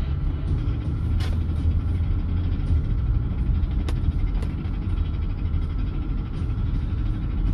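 Car engine and road noise while driving, a steady low droning hum with a few faint clicks and no talking.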